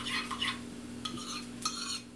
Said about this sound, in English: we ladled some of the broth into a bowl with the measured kashk and mixed it until it was nice and smooth. Then we stirred it into the soup.